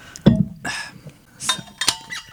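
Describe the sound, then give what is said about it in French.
A drink can is opened with a sharp click and a short hiss of fizz, followed by a few quieter metallic clicks and handling noises. “Canette ouverture. Canette ouverture.”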